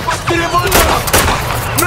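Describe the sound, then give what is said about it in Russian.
Gunfire from a captain shooting into the air in a war film scene, a few sharp bursts cutting through a loud, dense background of battle noise. “Капитан стреляет в воздух.”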